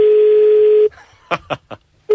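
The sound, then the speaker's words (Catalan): A telephone dials a bar in Rosario. A steady, low, loud line tone plays, then three short bursts follow, and the tone starts again at the end. “Telèfon d'un bar de Rosario a l'atzar i que la sort ens acompanyi.”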